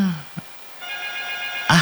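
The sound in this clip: A telephone rings as a listener calls in to a radio phone-in show. A single steady electronic ring tone sounds, with brief voice fragments just before and after it.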